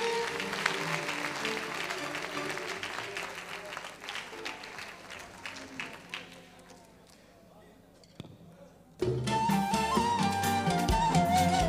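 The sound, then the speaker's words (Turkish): Audience applause for composer Selçuk Tekay and his musicians, dense clapping that thins and fades over several seconds, then a brief near-silence before music starts up loudly. “Ve bir kez kocaman bir Selçuk Tekay ve arkadaşlarını alkışlayalım mı?”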